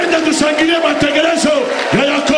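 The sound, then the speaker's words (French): A church audience shouts and cheers in acclaim. Loud, overlapping voices carry on steadily the whole time. “J'aimerais qu'on acclame le programme de Jacob.”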